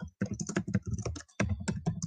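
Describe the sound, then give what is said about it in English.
Keys clatter on a computer keyboard as someone types a chat message: many quick taps in two bursts, split by a short pause near the middle. The typing is fairly quiet and there is no talk. “I will write it here in the chat.”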